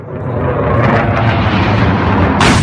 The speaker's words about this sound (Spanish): Este es el sonido del momento captado por uno de los testigos en el que un caza F-16 lanza una bomba sobre el palacio presidencial en Ankara, la capital de Turquía.